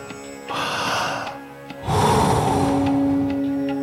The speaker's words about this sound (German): Ein, aus. Ein, aus. Noch zehn. Voll einatmen und dann wieder loslassen.